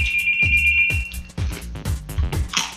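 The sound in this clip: A telephone rings with a steady, high electronic tone lasting just over a second, then stops as other busy, layered sounds continue.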